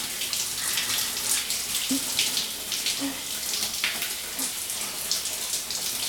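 Hot water runs steadily from a tap while hair is rinsed near the ears, a continuous hissing splash at a fairly even level with faint droplet patters.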